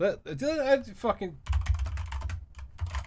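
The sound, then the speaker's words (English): Fingers type on a computer keyboard in a rapid run of clicks that follows a brief stretch of speech. “There we go. I typed it in caps.”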